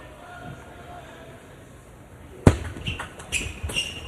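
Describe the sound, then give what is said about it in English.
A table tennis ball flies off a racket with heavy topspin during a match: one sharp, loud crack, then a few lighter ball taps, with voices of people talking. “And that ball goes flying off Andrew Tsao's racket. A lot of topspin rotation there on the shot from Kai Jung.”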